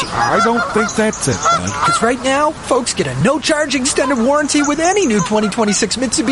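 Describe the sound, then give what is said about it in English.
Geese honking as a flock, loud repeated nasal calls that carry on throughout while a man talks over them. “Pretty sure it's geese, bud. Look, you can see them.”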